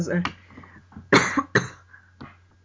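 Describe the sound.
A few harsh coughs from an irritated throat, with voiced throat sounds before them and a weaker cough at the end.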